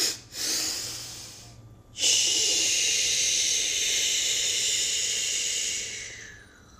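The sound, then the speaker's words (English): A deep breath drawn in, then a forceful, sustained exhale blowing out all the air, a loud airy hiss lasting several seconds before fading away. “You want to let out all your breath. I'm going to do it again.”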